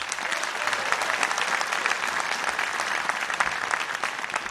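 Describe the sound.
Steady applause from a concert audience welcoming a banjo player from Newland, North Carolina, as a band is introduced; dense, even clapping holds at a constant level throughout without a break.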